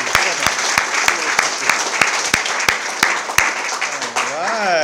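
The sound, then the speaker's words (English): Audience applause for a speaker: crisp, evenly spaced claps ring out in a steady rhythm, then a voice speaks over the fading clapping at the end. “Yeah, let's give Kurt another hand, huh? Good job.”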